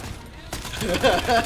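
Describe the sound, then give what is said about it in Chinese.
Video game gunfire crackles in quick bursts of rapid shots while players talk excitedly over the shooting. “你避开佢嘅子弹，跟住射佢背脊。”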